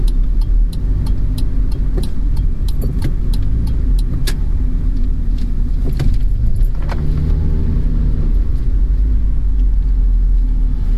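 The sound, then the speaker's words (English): A car driving along a road gives off a steady, loud engine and road rumble throughout. Scattered light clicks and jingles like keys rattling sit on top, with no talk. “I'm driving, so don't expect much, okay?”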